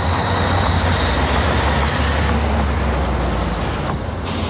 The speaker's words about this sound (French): Les poids lourds interceptés par les forces de l'ordre se succèdent à chaque fois.